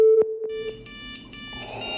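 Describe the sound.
A phone rings with an incoming video call: a short steady electronic tone with a few clicks gives way to a run of bright, buzzy synthetic tones in short repeating bursts. No voices.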